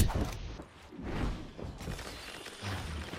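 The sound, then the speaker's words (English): Shotgun blasts in the video game Destiny 2: a few heavy, booming bursts with thuds and whooshing swishes in a busy game mix. “Bank my shots off this left corner. Shoot. Bro, what the heck? My shotgun has range, but sometimes it can be like a pain in the rear.”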